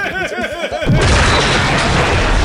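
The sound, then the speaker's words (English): A big explosion in a ravine, with rocks tumbling as it ends: a sudden loud roar that breaks in about a second in and stays as a dense, sustained rumble to the end. “Yeah, the ravine just kind of starts crumbling in on itself, and you hear just rocks tumbling after as the explosions end.”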